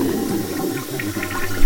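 A toilet in a cell flushes with a loud, continuous rush of swirling water that holds steady and swells slightly at the end.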